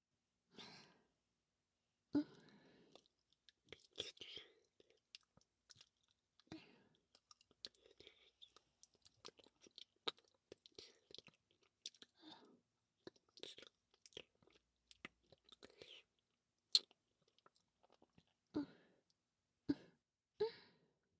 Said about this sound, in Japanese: こぼれてたの、全部舐めとっちゃった。